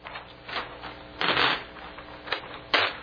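A calendar page being torn off, heard as a few crisp, rustling paper rips of uneven length. The longest tear comes in the middle and a sharp final rip closes it. No one speaks.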